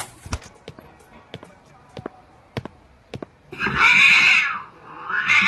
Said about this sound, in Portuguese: Gato preto, pô, azar!